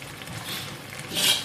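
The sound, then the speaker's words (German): A spoon stirs a cooking pot, scraping the bottom: a short, soft scrape followed by a louder, brighter scrape near the end, with no talk. “Also, ein bisschen rühren ist das A und O, damit du das unten immer ein bisschen hochkriegst.”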